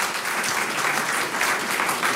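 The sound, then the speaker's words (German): Applause from a studio audience greeting a guest on a morning talk show, a dense, steady clatter of many hands clapping that holds at an even, fairly loud level throughout without any voices over it. “Ihr Applaus”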